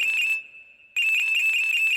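A telephone ringtone signals an incoming call: a loud, steady, high electronic trill that cuts out briefly, then resumes on its own.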